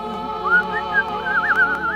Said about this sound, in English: That was me whistling.